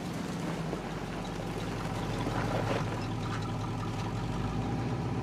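A car engine idles with a steady, low, even hum that neither rises nor fades, heard on its own without voices.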